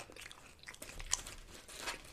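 Someone eats on camera, crunching and chewing food in faint, irregular bites with crisp crackles and one sharper crunch near the middle.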